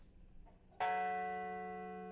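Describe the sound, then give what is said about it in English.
A single memorial bell stroke at the Flight 93 memorial in Shanksville, Pennsylvania rings out after a quiet moment, then hangs in a long, rich, slowly fading tone with no voices. “In Shanksville, Pennsylvania today, bells tolled for all 40 passengers and crew who died on Flight 93.”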